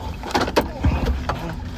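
Low, steady rumble of a car being driven, with a few brief clunks and rustling handling noises over the drone and no talking.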